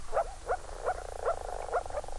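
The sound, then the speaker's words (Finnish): Male moor frogs make soft bubbling mating calls as spawning begins, six short gurgling notes spaced at a fairly even pace, faint and alone with no voices. “Poikamiehet aloittavat pulputuksen ja sen seurauksena alkaa lisää sammakoita nousta pinnalle.”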